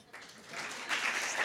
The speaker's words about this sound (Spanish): En un momento hay que aplaudir y en otro hacer silencio. ¿Cierto, Magda? Perfecto. Aplaudir en un momento.